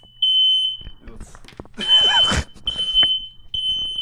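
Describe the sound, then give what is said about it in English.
A smoke alarm sounds a shrill, high, steady electronic tone that breaks into pulsing beeps, while people talk loudly over it with a few knocks and clatters. “That was my landlord's smoke alarm going off.”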